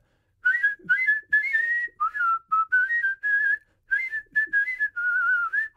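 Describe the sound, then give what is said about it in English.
Yodel-style whistling, many short, clear notes in a quick rhythm that flip back and forth with small upward and downward pitch jumps, bright and steady with brief gaps between phrases. “you have to really relax your face to be able to do the little jump, like, yodel whistles”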